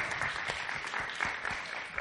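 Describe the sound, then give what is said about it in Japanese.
Applause from an audience, many hands clapping in a dense, steady crackle that holds at a fairly even level for the whole stretch without a break. “拍手拍手拍手”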